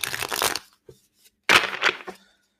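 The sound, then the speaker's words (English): Riffling rustle of a deck of self-care cards being shuffled, heard as two short papery bursts with faint ticks between them and no talk. “And I have the self-care cards here, but I might pull the self-care card.”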